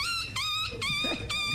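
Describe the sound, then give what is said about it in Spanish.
A voice imitates a small dog's squeaky whimpering with four high, thin whining yelps in quick succession, each held briefly, with no talking. “Mi talento oculto es el perrito chillón.”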